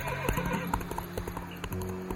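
A horse neighing while its hooves clop, a shrill whinny over uneven, repeated hoof strikes that continue throughout at a fairly loud, steady level.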